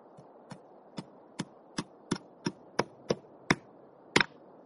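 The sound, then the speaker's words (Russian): Hammer blows strike a wooden board in a steady series of sharp, distinct knocks at an even pace, the final strike doubled, heard alone without any voices. “Эльза прибивает молотком злополучную доску.”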